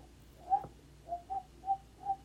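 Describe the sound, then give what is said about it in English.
A person whistles a short tune: five brief, soft notes at a similar middle pitch with uneven gaps between them. The whistling is quiet and heard alone. “that's about the extent of my whistling.”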